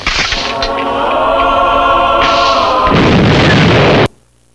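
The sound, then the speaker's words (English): A loud hand grenade explosion from a film scene: one sustained, roaring blast rumbles steadily for about four seconds, then cuts off abruptly into near silence. “So there you have it. The holy hand grenade.”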